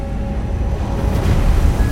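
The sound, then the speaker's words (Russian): A destroyer sails through foaming ocean waves with a steady, loud rush of surf and water, and wind noise over a low rumble. “Эскадренный миноносец «Грейхаунд» одиноко идет по бескрайнему океану среди пенящихся волн.”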